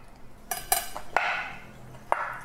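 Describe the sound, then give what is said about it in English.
A knife slices peeled apples, giving a few sharp, light clicks and taps against a hard surface, spaced irregularly with faint scraping between them. “make sure you have no bits of skin on the apples. And I'll talk to you about the next step once I'm done slicing all these up.”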